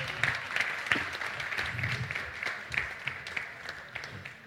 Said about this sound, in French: On peut les applaudir s'ils viennent, hein, il n'y a pas de souci.